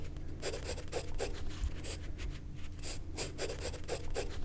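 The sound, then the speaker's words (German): Pencil strokes scratch across paper while a plant is being sketched, many quick rustling strokes in uneven bursts at a steady, soft level with no talking. “Da werde ich jetzt erst mal eine Weile zeichnen, bis ich die verstanden habe.”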